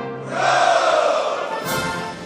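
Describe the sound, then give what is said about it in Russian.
Massed shouts of "Hurrah!" break into the march of the Life Guards Jaeger Regiment, a loud, sustained chorus of many voices that holds steady for about two seconds with a brief shift partway through. “Музыка марша егерского полка дважды неожиданно прерывается криками «Ура!».”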